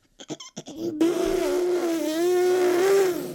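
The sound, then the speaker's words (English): A voice imitates a car driving away. A few quick clicks come first, then a sustained humming engine drone that wavers slightly in pitch and holds steady to the end. “We're driving away. We're driving to Target.”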